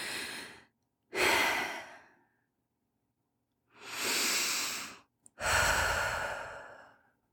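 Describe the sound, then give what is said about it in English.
Slow, deep breathing during a guided breathing exercise: a few long, breathy inhales and exhales with soft hissing air, separated by quiet pauses and with no talk. “Take three more breaths.”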